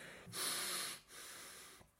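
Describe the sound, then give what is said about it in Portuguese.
Wheezing, strained breaths from someone whose asthma is making them short of air. Two long hissing breaths are separated by a brief pause, and the first is louder and harsher. “a minha asma está a subir-me pelas goelas acima faltar o ar”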